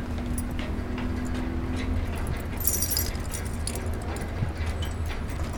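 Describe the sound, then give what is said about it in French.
Keys jangle as someone tries a key in a lock, a brief bright metallic rattle in the middle with faint clinks around it over steady background rumble. “Est-ce que j'ai la bonne clé au moins là?”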